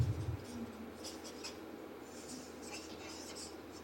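A pen writes on paper in faint, scratchy strokes, a few short bursts of rasping friction over a quiet background.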